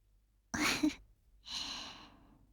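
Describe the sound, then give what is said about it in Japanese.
A yawn: a voiced, drawn-in breath followed after a short pause by a long, breathy exhale, quiet and heard alone. “あなたにもあくびが映ってしまったわね。”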